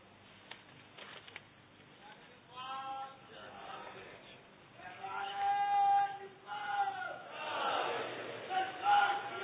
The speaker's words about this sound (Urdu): ان سے نعرے لگوا لیتے ہیں